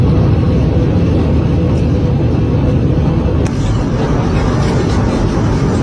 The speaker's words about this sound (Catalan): Pel so, us podeu imaginar que estan en un avió i, curiosament, doncs està ara mateix volant per sobre dels Andes, no?